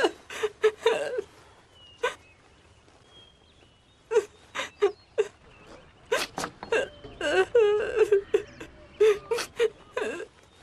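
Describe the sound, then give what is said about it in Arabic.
A boy crying in repeated whimpering sobs and catching wails that come in uneven bursts, fairly loud, with short quiet gaps between them. “لماذا تبكي؟”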